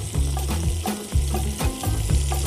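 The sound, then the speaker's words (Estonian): Cod fillet frying in butter in a pan on the stove, a dense steady sizzle with a regular pulsing rhythm beneath it, loud and continuous with no voices. “Aga samas väga kaua ei tohiks seda panni siit pliidi pealt ära hoida, sest muidu kuumus katkeb ja kala ei küpse.”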